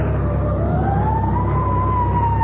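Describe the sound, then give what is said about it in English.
Fire engine siren wails on a road near a burning sanitarium whose driveway is blocked by police cars. One loud rising tone climbs and holds steady over a low engine rumble, with no talk. “Fire engine?”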